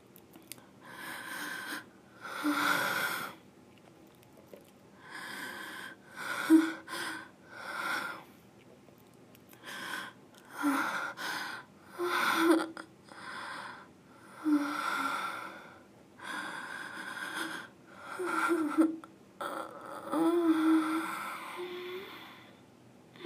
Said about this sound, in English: Now, relax and breathe with me.